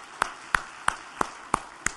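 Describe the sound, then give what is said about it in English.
Six sharp, evenly spaced hand claps at a church service thanking volunteers and leaders, slow and regular, fairly quiet, with near silence between each one. “Let's clap for these guys. Thank you for your work.”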